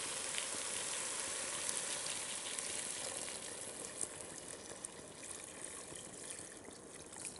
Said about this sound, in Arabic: هالخلطة كليتها نقلبها مع بعض. حضيف المي،